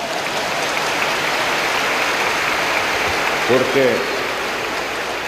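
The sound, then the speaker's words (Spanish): Applause from a conference audience: a dense, steady wash of clapping that holds an even level throughout, with a brief voice surfacing near the end. “Muchas gracias por este aplauso.”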